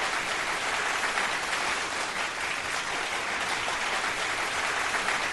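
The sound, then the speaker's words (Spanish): Sustained applause from a crowd, a dense, even wash of clapping that holds steady at moderate loudness for several seconds without pause, no voices standing out. “estas últimas dos colecciones se merecen grandes aplausos”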